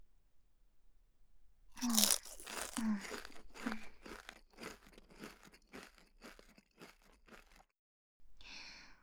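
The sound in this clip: Crunching bites of a salad-flavoured snack: many crisp, sharp crunches in quick succession over several seconds, loudest at the start and thinning out toward a pause.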